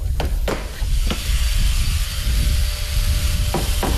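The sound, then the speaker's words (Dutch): Hammering on an old orange English double-decker bus surrounded by scaffolding during leak repairs, a few sharp knocks standing out over a steady mechanical whirr and hiss with a faint thin tone running through it. “En u hoort het, er wordt getimmerd en de slijpmachine komt eraan te pas”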